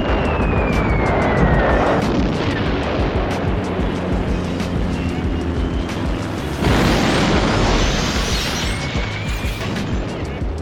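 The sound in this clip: Bombs exploding in an air strike: a continuous, heavy roar of blasts and rumbling debris that stays loud throughout and swells again in the second half, with thin whistling tones above it and no voices.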